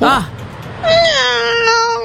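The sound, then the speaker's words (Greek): A person's voice imitates a cat's meow: a short wavering call, then a longer, drawn-out, high-pitched meowing wail. “Εγώ νομίζω κάνω πάρα πολύ καλά τη γάτα.”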